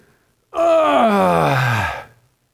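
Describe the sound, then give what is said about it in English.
People at a church service groan together on cue in one loud, sustained low vocal groan of about a second and a half. Its pitch slowly falls before it cuts off into silence. “I'd like you to try groaning with me. Ready? Now really groan like you mean it.”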